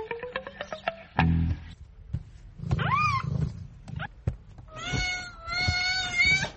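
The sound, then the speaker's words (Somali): A mother cat meows while nursing her kitten: a quick run of short, high meows, then a couple of curving cries and a few longer, drawn-out meows, with no talking. “fiiri hooyo siday bisadan ilmaheeda u nuujinayso bisadanina sidaasoo kale ayay ugu baahan tahay”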